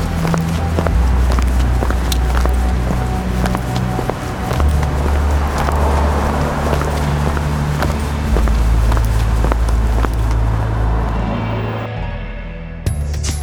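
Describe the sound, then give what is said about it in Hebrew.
Running footsteps of people hurrying to the eye doctor patter quickly and steadily over a sustained musical bed, before fading out at the very end. “אני רץ איתם לרופא העיניים, טוב? שלום. בואו, בואו, מהר.”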